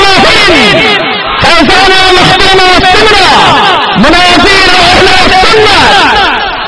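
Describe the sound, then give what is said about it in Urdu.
A large crowd chants religious slogans in unison, a loud and continuous mass of many voices that rises and falls in rhythmic surges, with brief dips near the start of the first and fourth seconds. “اب حضرت سے میں گزارش کروں گا کہ please اب نعروں کا سلسلہ بالکل بند کر دیں, کہ میں دوسرے مقرر کے طرح نہیں ہوں کہ وہ نعرے مارنے سے خوش ہوتا ہوں, وقت خراب ہوتا ہے”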